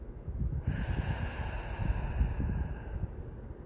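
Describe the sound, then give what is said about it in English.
A deep, slow breath, sustained and airy for about three seconds, with a soft rushing hiss and a faint nasal rasp. “Go ahead and breathe with me. Breathe in and out.”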